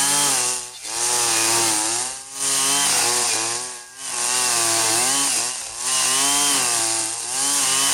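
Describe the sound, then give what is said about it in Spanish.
A motorized brush cutter (string trimmer with a copper line spool) cuts weeds on a farm, its engine holding a steady, buzzing high-pitched drone broken by several brief dips in revs. “Voy a yerbar allí que ya me prendió esta guadaña.”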